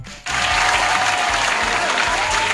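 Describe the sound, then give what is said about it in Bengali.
Loud, dense applause for a cricket great breaks out abruptly after a brief quiet moment, then holds as a steady, even roar of many clapping hands to the end. “Rahul Dravid, একটা জোরে হাততালি সবার জন্য,”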